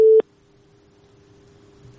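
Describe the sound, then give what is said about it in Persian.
Busy-signal tone on a phone line after a call-in listener was cut off: a single short, loud beep, then only a faint, steady low line hum for the rest. “بله فکر کنم تماسشان قطع شده.”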